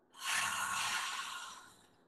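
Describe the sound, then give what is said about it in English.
A deep belly breath drawn through the nose and then let out: one soft, airy swell of breath noise that rises quickly, holds for over a second and trails off gently, with nobody speaking. “Inhale through the nose, big belly breath. And get empty.”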